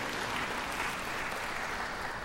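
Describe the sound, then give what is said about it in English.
Audience clapping in agreement during a sermon: a dense, even wash of many hands applauding at once, steady and fairly loud throughout. “Yeah, you can clap if you agree with it.”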